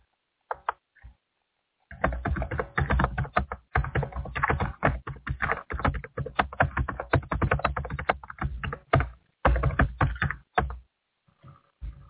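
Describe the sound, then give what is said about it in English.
Rapid typing on a computer keyboard: many quick, crisp key taps in dense bursts separated by short pauses, fairly quiet, with no voices. “Oh, I wonder why I can't type.”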